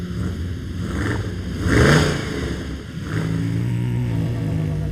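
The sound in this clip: Engine revving of a heavy, white-painted German racing car at the start of an international race: a steady drone that swells to a louder rev in the middle, then settles back into an even roar.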